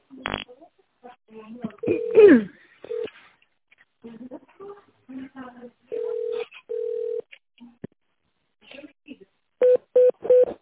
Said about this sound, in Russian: Для того, чтобы попасть к внутреннему абоненту, наберите трехзначный внутренний номер или один из нижних номеров.